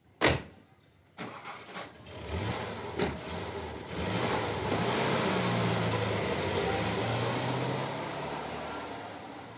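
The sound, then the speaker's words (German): A chauffeured car starts and drives off, opening with a few sharp door thuds and clunks before the engine starts, then settling into a steady, moderately loud engine hum that carries on to the end. “Einsteigen, Chauffeur in die Stadt zurück, bitte.”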